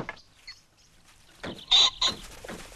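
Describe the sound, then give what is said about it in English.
Birds wake up in a workshop, giving a few short clucking, fowl-like calls that grow louder toward the end. The background stays quiet between the calls. “In the workshop, the birds are beginning to wake up.”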